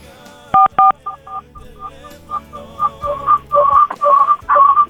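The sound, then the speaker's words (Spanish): Telephone keypad dialing tones during a redial, a quick series of many short beeps at changing pitches, mostly alone with no talk. “A ver, vamos a volver a marcar”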